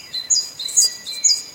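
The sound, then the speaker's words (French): Tits (titmice) are singing in three bursts of thin, very high chirps. The chirps are faint and spaced evenly, with a soft hiss underneath. “Dans la vraie vie, les mésanges, ça sonne comme ça.”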